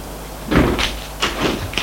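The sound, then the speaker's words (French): An apartment door opening, heard as a few muffled thumps and clunks over a constant broad hiss. “Deux heures plus tard, la porte de l'appartement s'est ouverte.”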